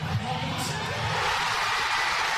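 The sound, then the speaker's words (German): Thousands of football fans in central Oslo roar and cheer after Haaland's late second goal against Brazil, a broad, sustained crowd noise with scattered whoops and shouts rising out of it. “Schon als Norwegens Mittelstürmer Erling Haaland in der 90. Minute sein zweites Tor gegen Brasilien schießt, ist der Jubel bei den tausenden Fans im Zentrum von Oslo groß.”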